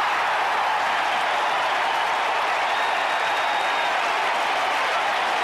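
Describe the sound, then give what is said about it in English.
A stadium crowd of more than 45,000 gives baseball player Ozzie a standing ovation after a diving play. Clapping and cheering merge into one loud, unbroken roar that stays level for the whole stretch. “Unbelievable. You just have to be here to see it. There's 45,000 plus, and they're giving Ozzie a standing ovation.”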